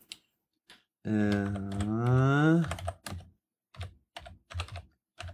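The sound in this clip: Typing on a computer keyboard comes in scattered clicks and short bursts. A long, drawn-out voiced sound interrupts it in the middle.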